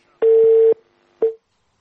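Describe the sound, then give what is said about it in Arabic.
Telephone disconnect tone after a call is cut off: two steady, mid-pitched beeps, the first long and the second short, standing alone against near silence. “طيب واضح لأن الاتصال انقطع.”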